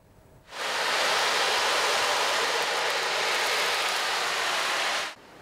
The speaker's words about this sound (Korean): 시원한 여름 바다의 파도 소리가 법당 안을 가득 채웁니다.